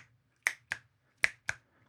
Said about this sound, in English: Or we might have a chuff, chuff, chuff, which turns into a finger clicks.